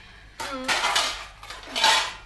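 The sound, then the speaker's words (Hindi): Metal cooking pots and utensils clank as they are set down beside a cooking fire: a few short, bright clatters in an uneven rhythm, with no talking. “लो मैं बर्तन भी ले आई हूँ, इधर रख दीजिए, मैं यहाँ से दूर हट जाती हूँ।”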